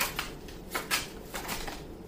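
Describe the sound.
Soft shuffling of a tarot deck during a card reading: a few brief papery riffles and slaps separated by quiet gaps, faint throughout with no voices.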